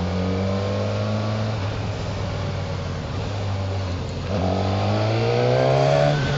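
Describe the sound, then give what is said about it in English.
A light, nippy, responsive engine pulls away and revs up through the gears while rounding a large roundabout, its pitch climbing steadily, dipping at a gear change, then rising again over constant rushing wind noise. “this races through the gears very nicely”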